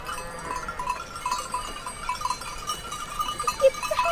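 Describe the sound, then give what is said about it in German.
Sheep flock grazing on an alpine mountain pasture in the Swiss Alps, with faint, scattered bleats over a steady, quiet outdoor background and no talk. “Endlich kommen die Schafe in Sicht. Dunkelbraune und weiße Wollknäuel bewegen sich auf erstaunlich dünnen Beinchen den Hang rauf und runter.”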